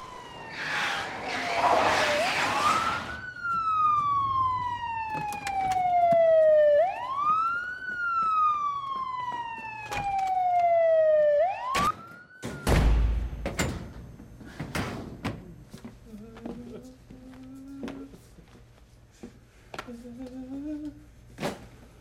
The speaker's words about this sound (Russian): садится за руль полицейской машины